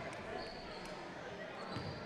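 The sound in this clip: A basketball is dribbled on a court during a high school game, a few faint, dull bounces barely rising above a steady wash of crowd noise.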